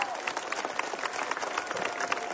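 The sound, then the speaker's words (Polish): Applause at a religious gathering: a crowd claps steadily and briskly through the whole clip at an even level, with no pauses. “I brawa dla Matki Bożej, która jest gospodarzem dzisiejszego spotkania.”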